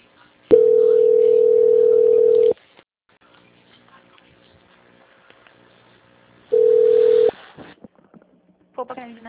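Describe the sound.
A telephone line tone sounds while a call is being transferred: two loud, steady, mid-pitched tones, each about two seconds long, separated by a longer stretch of near-silence with faint line noise.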